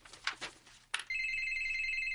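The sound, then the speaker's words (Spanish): A telephone rings with a steady, continuous electronic trill that starts abruptly after a few brief rustles and soft noises, then holds at an even level to the end. “Miren el teléfono.”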